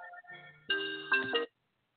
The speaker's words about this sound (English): Ooh, maybe that's a phone call.